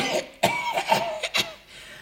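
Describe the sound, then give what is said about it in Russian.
Coughing from a sick person who is also complaining of back pain and a heavy head: a few harsh, breathy bursts spread across two seconds, loud and alone with no talk. “кашель тоже”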